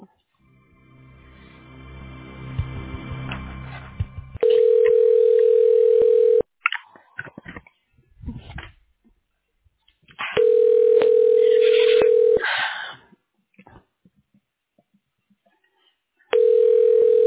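Telephone line tone while a call is transferred to a hospital radiology department. A few seconds of rough, crackly line noise come first, then long, steady tone bursts repeat with silent gaps, and the last burst is cut off.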